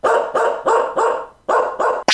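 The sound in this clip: Dog barking: six loud, sharp barks in a steady rhythm, with a short pause before the last two, then a brief burst of another sound at the end.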